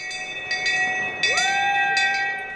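Cowbell rung by hand to open the ski season at a ski resort: several bright, metallic clangs in quick pairs over a sustained ringing tone.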